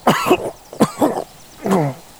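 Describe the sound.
A wounded man with a bullet lodged in his torso coughs in a few harsh, wet bursts, the last one longer and throatier, with no talk.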